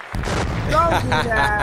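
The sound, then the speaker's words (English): Explosion sound effect: a sudden loud blast after a brief quiet start, swelling into a sustained, roaring rumble with whistling tones on top, holding steady to the end. “But can we get a bomb for the East Coast, though? Can we get a bomb for the East Coast?”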